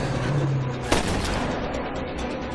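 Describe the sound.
A gunshot from a film scene: one sharp, loud report cuts through a constant noisy, rumbling soundtrack, and the busy background continues after it.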